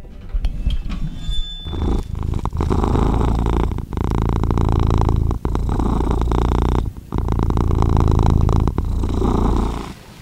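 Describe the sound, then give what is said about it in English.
A cat purring while held in a person's lap: a loud, steady, low rumbling purr that runs continuously for about ten seconds, broken by a few brief pauses between breaths. “That is the sound of my little feline friend Quincy here, who has arrived at the decision that he likes me to hold him in my lap when I'm recording the podcast.”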